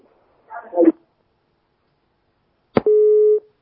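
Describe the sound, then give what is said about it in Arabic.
Telephone busy tone after a call is cut off: a brief voice fragment, a pause, then a click and a single steady mid-pitched beep lasting about half a second. “طيب هو التلفون انقطع، أرجو الاتصال، عاود الاتصال تاني”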